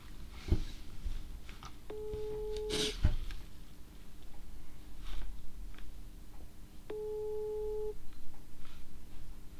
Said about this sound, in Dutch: Wordt niet opgenomen.